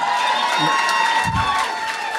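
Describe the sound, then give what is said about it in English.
A crowd cheers and applauds, with whoops and shouts blending into a loud, sustained wash of noise. “I want to pick one person who cheered.”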